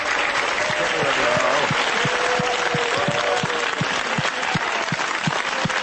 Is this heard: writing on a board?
no